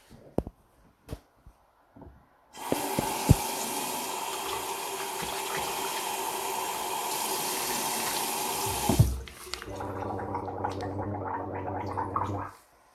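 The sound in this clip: Water from a tap runs into a ceramic washbasin set into a board. A few faint knocks come first, then a steady rushing stream that changes to lower splashing as hands are washed, before stopping.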